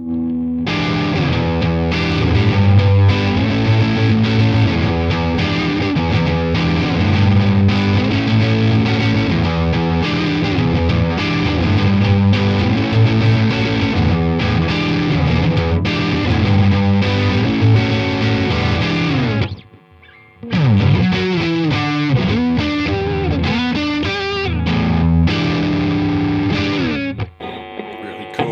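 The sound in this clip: A distorted electric guitar played through a valve amp rings out in loud, sustained chords, cuts off briefly near the end, then comes back in.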